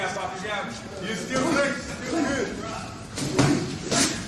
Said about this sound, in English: Give us some sound on this, please, Brian. My God, Sean Strickland batters in here. Jesus.